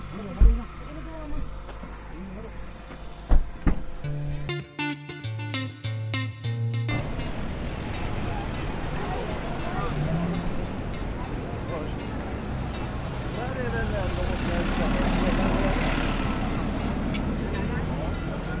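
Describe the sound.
A family car pulling away from the city toward the beach: voices and scattered knocks come first, then a broad, steady engine and road rumble builds gradually and continues for about ten seconds.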